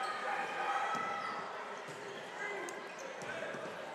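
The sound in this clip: A basketball dribbles on a gym court during a PIAA 4A boys high school state playoff game, a few dull thuds under a commentator's continuous play-by-play.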